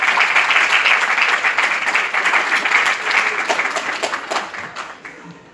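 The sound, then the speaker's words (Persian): An audience claps at the opening of a ceremony held by a student association, a dense, sustained wash of applause that gradually thins and fades toward the end. “لطفا دست بزنید”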